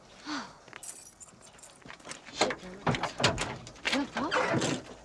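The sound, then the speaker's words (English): Car trunk being opened, with clattering latch and lid sounds and jangling keys in a busy burst of movement, voices audible alongside. “Open the trunk.”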